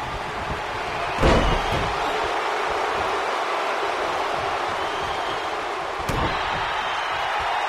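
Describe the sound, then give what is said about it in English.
Belly-to-belly slam onto the mat at a professional wrestling match: one heavy thud lands early and a second sharper impact comes near the end, both over a steady, dense background roar. “And a belly-to-belly slam.”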